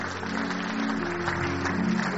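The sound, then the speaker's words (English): Congregation applauding as couples come forward to be celebrated at a church service: a steady, dense wash of clapping at moderate level, with no clear breaks. “Please keep clapping as they come.”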